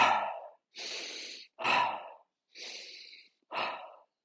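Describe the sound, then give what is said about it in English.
Deep breaths taken during a short centering exercise, chin on chest and eyes closed. Five breathy rushes of air, each about half a second long, come in a steady rhythm with brief silences between them and no talking. “Then we put our chin on our chest, we close our eyes, and we take three deep breaths.”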